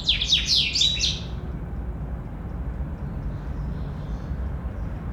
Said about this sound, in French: كنسمع لي زوازو الطيور